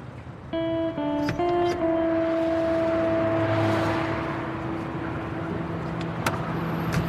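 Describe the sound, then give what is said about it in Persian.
A police car pulls up and stops outside a cafe, its engine a steady, moderate hum with a faint tonal whine that settles into an even idle, with no voices. “بیرون کافه ماشین پلیس توقف کرده.”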